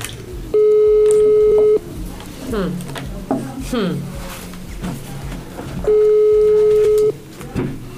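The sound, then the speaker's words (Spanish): An incoming telephone call on a call-in line sounds as two long, steady electronic tones, each just over a second long. They are separated by several seconds of faint clicks and chirps. “nos dice Leo que tenemos otro llamado, van a seguir participando”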